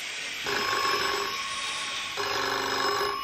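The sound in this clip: A telephone rings twice, each ring a sustained, buzzing electric burst of about a second, heard over a constant hiss with a quiet gap between the rings.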